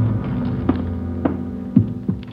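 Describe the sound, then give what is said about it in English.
A low elevator hum drones steadily as the car goes up toward the sixth floor. A throbbing undertone and a few soft, regularly spaced thumps sit over it. “We took the elevator up to Tracy's apartment on the sixth floor.”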